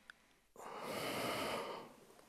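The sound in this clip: A single long exhaled breath taken during a yoga exercise, soft and airy, swelling and then tapering away over nearly two seconds, heard alone without talk.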